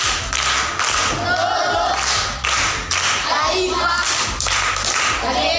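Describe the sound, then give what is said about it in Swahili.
Schoolchildren in a primary school class clap for a classmate who answered a question, brisk steady clapping throughout with children's voices faintly underneath. “Makofi kwa mjomba.”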